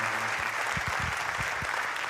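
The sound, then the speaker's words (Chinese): Audience applause, a steady, continuous patter of many hands clapping at a fairly even, moderate level from start to finish. “阿苏兄感谢大家的掌声”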